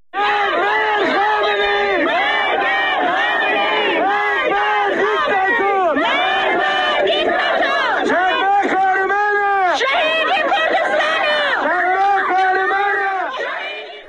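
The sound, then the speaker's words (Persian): Protesters and mourners chant slogans together at a grave. Loud shouting voices rise and fall in a continuous rhythmic chant from start to finish. “صدای شعار معترضان و عزاداران رو بر سر خاک شادمان احمدی هم میتونیم با هم بشنویم.”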